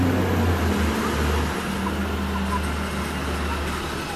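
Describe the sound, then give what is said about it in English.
A garbage truck passing by, a loud low engine rumble with broad road noise that eases after the first second and a half and continues as a softer drone. “That garbage truck.”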